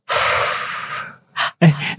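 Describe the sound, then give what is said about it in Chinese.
Loud breathing straight into a microphone: one long, rushing exhale, then two short, sharp breaths after a brief pause. “哎，你太多杂音的啦。 有人在呼吸。”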